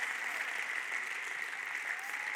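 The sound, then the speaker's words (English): Applause from a church audience clapping their hands during a service: dense, steady clapping that holds at an even level throughout, with no voices heard. “Would you clap your hands if you know what I'm talking about?”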